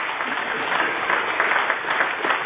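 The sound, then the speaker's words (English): An audience applauds a group of people, a continuous wash of many hands clapping at moderate level, even and sustained throughout with no clear breaks. “Can you give these guys can you give them all a round of applause?”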